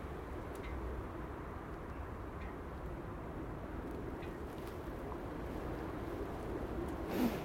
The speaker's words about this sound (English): Well, it was milder when the wind wasn't blowing, but now it's got up. It's actually driving icicles through the air.